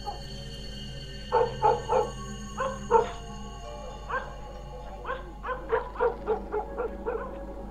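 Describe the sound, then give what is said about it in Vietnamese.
Dogs bark in a village at night: many sharp, loud yaps come in clusters with short gaps between them, and no one talks over them. “tiếng chó cắn ma cứ ong ong trong đêm đến rộn ràng cả xóm.”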